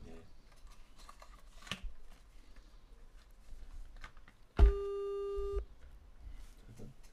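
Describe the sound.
A telephone ringing tone heard while calling a friend: one steady electronic tone lasting about a second, over faint background clicks and rustling.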